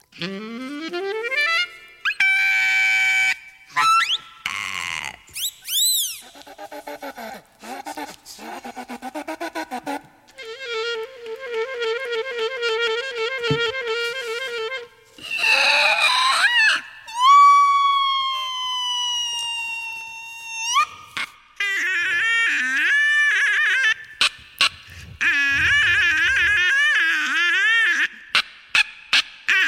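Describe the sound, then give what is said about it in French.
Saxophone imitating animal-like noises: many squawks, honks and goose-like cries alternate with sliding, siren-like wails and rapid trills, each burst separated by short silences. “Tous les bruits que vous allez entendre viennent du saxophone.”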